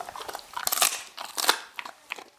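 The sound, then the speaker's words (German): A dog biting into a chicken foot, giving many irregular, crisp crunches and crackles as it chews. Bursts come in quick clusters with short pauses, moderately loud and with no voices. “So brav ist, gibt's einen Hühnerfuß. Beißt du mal ab?”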